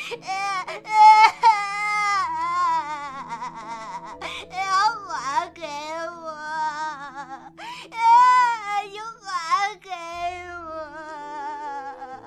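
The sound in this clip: A voice imitates a child wailing and crying, sobbing in long, wavering, high-pitched bursts that rise and break, loud and continuous throughout.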